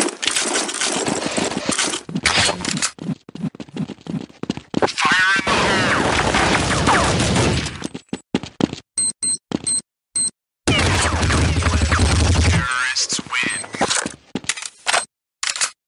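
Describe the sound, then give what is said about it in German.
Sounds from the tactical multiplayer shooter Counter-Strike, the 2000 standalone version of a Half-Life mod: dense, sharp gunfire bursts and clattering game effects, a sustained noisy stretch in the middle, then scattered short hits separated by brief silences. “Ja, das ist diese erwähnte Mod für Half-Life, aber die wurde ja dann noch zum eigenständigen Spiel im Jahr 2000, nämlich Counter-Strike, der taktische Multiplayer-Shooter.”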